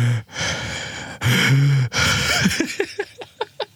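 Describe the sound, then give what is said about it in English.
A woman breathes loudly and closely into a microphone. A few long, heavy breaths come first, then a run of short, quick puffs and sniffs, with no talking. “Whenever I do an episode with this woman, she breathes into the microphone a lot. So what I have to do is like cut out her breathing.”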